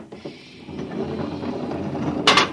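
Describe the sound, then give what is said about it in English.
An airlock door slides open with a steady mechanical hiss and low rumble, swelling into a brief burst of bright hissing air near the end, with no voices. “I have a pass from the Director of Emotional Stability for the Third Oblong. Special mission. I'll open the airlock.”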